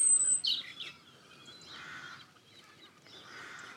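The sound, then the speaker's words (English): A bird singing, faint and delicate: a quick cluster of high chirps and a thin whistle at the start, then quieter passages without clear song. “Really hear a bird singing.”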